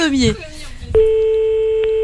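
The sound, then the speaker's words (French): A telephone call is being dialled: after a man speaks, a steady single-pitched phone tone comes in and holds, with a brief click near the end. “Allez, nous appelons donc Jean Bonne Année de Coulommiers.”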